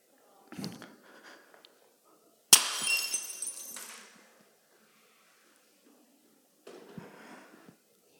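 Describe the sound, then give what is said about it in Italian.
A plate breaks with one sharp crash, and shattering fragments trail off over about a second and a half. A few quieter, brief sounds come before and after it. “Poi chiediamo scusa, però il piatto è rotto. Scusate ragazzi, ma il piatto è rotto.”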